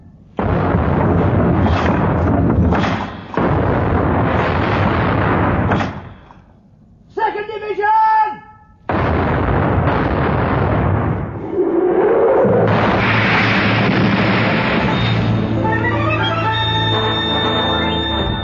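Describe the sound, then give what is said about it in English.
A sailing warship fires a cannon broadside: several heavy, booming blasts with long rumbling tails in close succession. A brief shouted voice comes between the volleys. “When the guns are hot, they'll reach it. Carry on then, Mr. Hornblower. Open fire, First Division!”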